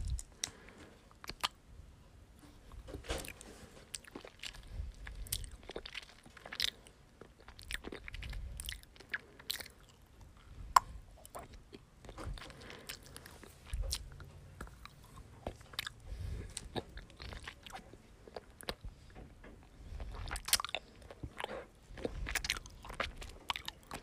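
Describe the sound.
Someone eats a snack: crisp bites and crunchy chewing repeat in many faint, irregular clicks and crackles over a long stretch, with no talking.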